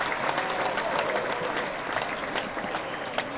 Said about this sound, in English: Clap it up, clap it up, clap it up.